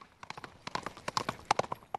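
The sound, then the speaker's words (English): Horse hooves clip-clop as riders gallop to relay mail, with many quick, irregular hoof strikes that grow louder and sharper toward the end. “Riders galloping 24-7, relaying a mailbag from horse to horse and man to man”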